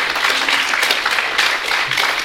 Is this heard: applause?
yes